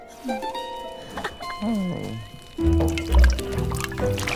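A witch's magic soup pot of herbs bubbles and gurgles, opening with whimsical gliding tones and then low, loud gurgling bursts of liquid in the second half.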